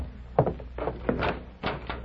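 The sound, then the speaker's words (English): A door being opened, a few short wooden clunks and rattles of the handle and latch. “You open the door”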